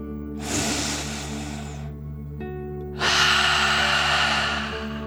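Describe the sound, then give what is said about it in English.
A deep breath in and out during a guided relaxation exercise: a long airy inhale, a brief pause, then a longer, louder breathy exhale over a steady low background tone. “let's take another deep dragon breath together. Ready? Deep breath. In and out.”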